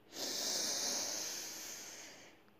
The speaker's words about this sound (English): relax your shoulders, relax, and take another deep breath in.